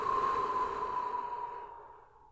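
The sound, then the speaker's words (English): A person exhales slowly through the mouth during a breathing exercise. The soft, breathy rush of air lasts about two seconds and fades away gradually. “Hold it for just a moment without closing the throat, and then exhale.”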